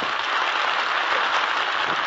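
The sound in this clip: Studio audience applause welcoming guests on a 1948 New Year's radio program, an even, unbroken roar of clapping that holds at a steady level throughout.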